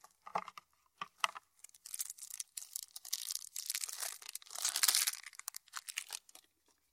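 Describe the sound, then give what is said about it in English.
Crinkling and tearing of wrapping as packs of cards for a fairytale-themed card game are unboxed and opened, many faint, irregular rustling bursts with short gaps between them and no talking. “Okay, so I'm opening the box, and there are two things of cards in here. So I'll open the cards.”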